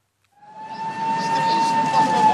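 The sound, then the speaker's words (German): A siren wails at a street protest outside Rossio station in Lisbon, where demonstrators stage a nuclear attack. After a brief silence a loud, steady tone swells in and holds over a broad, noisy rumble. “Sirenen heulen und Hunderte von Menschen werfen sich blitzartig vor dem Rossio-Bahnhof mitten in Lissabon auf den Boden.”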